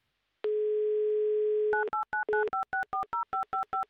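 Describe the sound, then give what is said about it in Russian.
A telephone dial tone as a radio show phones a listener in Nakhabino. The steady tone holds alone, then gives way to a rapid, evenly spaced run of many DTMF keypad beeps. “Звоним в Нахабино. Звоним Денису, делаем это прямо сейчас.”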